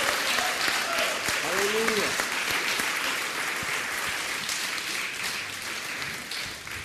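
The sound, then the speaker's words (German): A church audience at a bilingual English and German revival service applauds for Jesus. Thick, continuous clapping stays loud and then eases slightly toward the end, with a brief voice rising over it near the start. “Let's put our hands together for Jesus. Lasst uns Jesus einen Applaus geben.”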